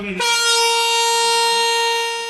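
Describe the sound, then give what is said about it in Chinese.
A freight train horn sounds as a container train loaded with nearly 1000 tonnes of PVC departs Xining in Qinghai. One loud, steady blast with a rich harmonic tone holds for about two seconds. “随着汽笛鸣响，这辆满载近1000吨聚氯乙烯的中亚班列西宁至胡志明缓缓驶出。”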